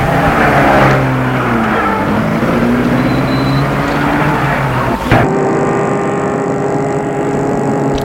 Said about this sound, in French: La femme ferme la porte et la voiture file.